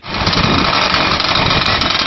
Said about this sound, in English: The engines roar to life